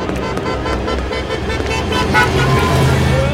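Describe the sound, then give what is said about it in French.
A bus sounds its horn as it nearly hits a pedestrian crossing a street. Dense, loud traffic rumble continues throughout, with a low tooting tone toward the end. “Oh, tu as bien failli finir étalé comme une crêpe sur un bus !”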